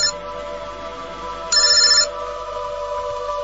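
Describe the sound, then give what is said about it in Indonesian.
A mobile phone rings with a steady electronic ringtone of sustained tones, joined midway by a brief, louder burst of higher, brighter tones before settling back to the plain ring. “teleponku berbunyi lagi.”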